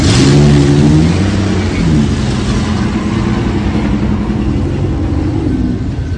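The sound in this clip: A car drives off and accelerates, its engine rumbling loudly with a steady mid-pitched drone that holds throughout without pause.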